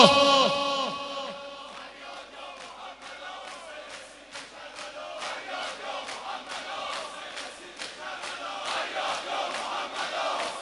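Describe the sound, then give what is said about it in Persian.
A crowd shouts the religious chant Ya Muhammad: a lone voice leads at the start, then many voices answer in repeated, rhythmic shouted bursts that grow gradually louder. “صدا تو آزاد کن. فریاد یا محمد،”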